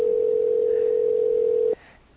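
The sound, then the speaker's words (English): Telephone dial tone heard while placing a call: a loud, steady single-pitch hum that holds unchanged, then cuts off abruptly near the end and leaves only faint background. “Let's dial him up. You ready? Yeah. All righty, let's give him a call.”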